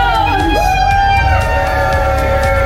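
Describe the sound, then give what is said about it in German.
Crowd cheering at a festival in Trier, a loud, sustained roar of many voices with whoops and shouts carrying over the mass of sound. “Liebe Trierer, könnt ihr einmal kurz jubeln?”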